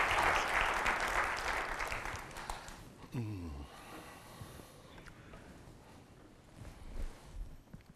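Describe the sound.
Applause welcomes a physicist as he steps up to give a talk. A dense, strong burst of clapping lasts about three seconds, then thins and fades into quieter scattered sounds.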